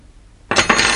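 A knife set down on a hard surface: a sudden sharp metallic clatter after silence, followed at once by a second bright clink that rings briefly.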